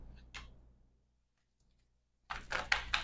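Tarot cards being flipped: a single soft flick, a quiet pause, then a quick cluster of papery snaps and slaps.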